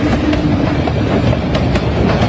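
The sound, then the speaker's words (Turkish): A train speeds along a railway in India with a loud, steady roar, broken by a regular clickety-clack of wheels passing rail joints. “Son sürat gelen tren tüm hızıyla ineğe arkadan çarptı.”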